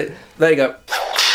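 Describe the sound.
Whip being set aside on its hook, a sharp, noisy swishing burst that comes right after a short spoken remark, with talk around it.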